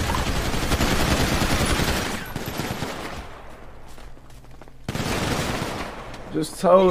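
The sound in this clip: Rapid gunfire in a video game, heard as two long stretches of dense, crackling automatic fire separated by a quieter gap, with a short burst of sharper sounds at the very end.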